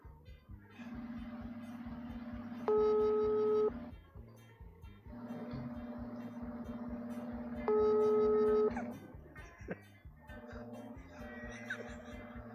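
Ringback tone of an outgoing telephone call, placed as a prank call to someone's door: two steady, evenly spaced rings over a low hum and background noise.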